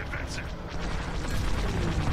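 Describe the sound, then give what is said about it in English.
A proton torpedo launches in a Star Wars flight video game with a low, rumbling whoosh and a few brief whistling sweeps early on, fairly quiet and steady throughout. “Oh shit. Oh, okay. Oh, that's the proton torpedo button, I think.”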